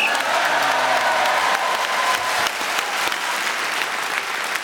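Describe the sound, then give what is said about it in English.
A live audience gives a steady round of applause, a thick wash of many hands clapping at an even loudness throughout. A faint low hum underlies the first part. “the audience really enjoyed it. A round of applause showed it.”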